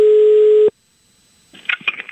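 A telephone tone sounds as an outgoing call rings through: a single steady, loud tone lasting under a second, then a short silence before faint, scattered noises resume.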